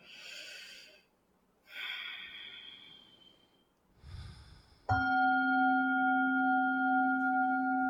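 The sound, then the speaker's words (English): A slow, deep breath is taken during a yoga practice: a soft, airy inhale and then a longer exhale. A clear, sustained ringing chime then sounds and holds steadily to the end. “And let's take one breath together.”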